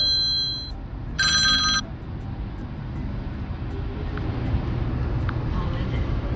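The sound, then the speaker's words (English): A telephone ringing, with two short electronic ring bursts of bright, pure tones in the first two seconds, followed only by a steady low rumble of background noise. “sorry about that, phone ringing”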